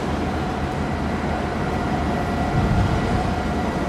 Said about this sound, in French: Le jour se lève à Yongtian, sur le terminal des conteneurs, au bout du bout du quai.